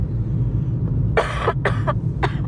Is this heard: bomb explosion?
no